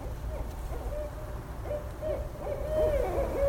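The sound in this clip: An owl hoots its classic 'who cooks for you' call: a series of clear, mid-pitched hooting notes in uneven phrases over a steady low rumble, growing somewhat louder toward the end.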